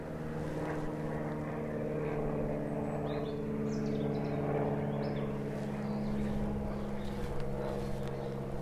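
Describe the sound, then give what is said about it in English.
A light aircraft passes overhead with a steady propeller drone and a low tonal hum that holds at an even loudness for the whole stretch, with no voices. “Light aircraft has just gone overhead.”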